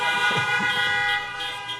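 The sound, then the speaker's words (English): A car horn honks during a sermon: one loud, sustained, buzzy blare lasting almost two seconds, growing slightly softer near the end. “That deserves a honk.”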